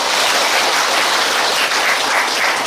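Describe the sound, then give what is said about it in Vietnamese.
Loud, dense applause from an audience at a Buddhist dharma talk: a steady rush of many hands clapping at an even level throughout, with no talk over it. “Giỏi, 10 điểm cho Tràng pháo tay.”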